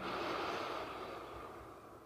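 A person draws in one long, deep breath during a guided meditation. The soft, airy inhale holds steady for about two seconds, faint and alone without speech.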